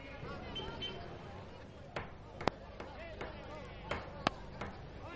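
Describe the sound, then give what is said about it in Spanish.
A blind man's walking cane strikes the floor again and again: several sharp, hard knocks at an uneven pace, heard under voices. “Él golpea que te golpea con el bastón en el suelo y ustedes ahí mira que te mira.”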